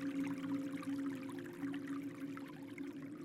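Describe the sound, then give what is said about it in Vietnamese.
A stream murmurs and trickles steadily, a faint, continuous wash of flowing water over a low, even hum, with no voices. “Tiếng gió thổi qua những tán cây cùng với tiếng suối rì rào dường như cũng đang hòa nhịp cùng với tình yêu của cô.”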